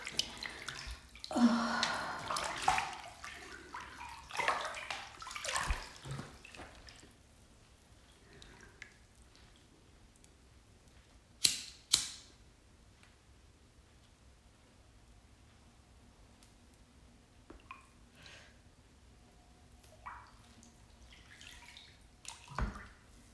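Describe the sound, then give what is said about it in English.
Running water splashes as a face mask is rinsed under the tap, in loud irregular bursts over the first several seconds, then a quieter trickle broken by a couple of sharp clacks midway and softer splashes near the end. “And I'm sorry, I'm rinsing my face mask.”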